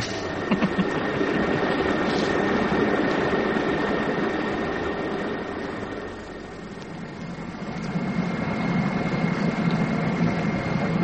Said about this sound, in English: Ladies and gentlemen, as we shall shortly be landing at Kai Tak Airport, would you fasten your safety belts now?